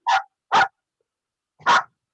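Dog barking in three sharp, loud barks: two close together, then a pause before the third. No talk.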